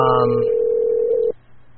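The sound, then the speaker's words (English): A telephone being dialed: a clear, steady electronic tone holds at even pitch for just over a second, then cuts off abruptly, leaving faint low hiss. “I'm sorry, he's dialing.”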